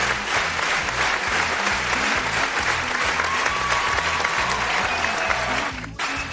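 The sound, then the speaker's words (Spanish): A studio audience gives loud, steady applause to welcome arriving guests over a regular low rhythmic beat. The clapping holds at full strength and then drops away abruptly near the end. “Un fuerte aplauso para Albert Trujen.”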